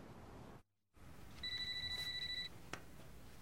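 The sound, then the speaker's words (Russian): A telephone rings once with a high, rapidly pulsed electronic trill lasting about a second, faint over low background noise, following a brief dropout to silence and ending with a small click. “Ему звонит Консуэла.”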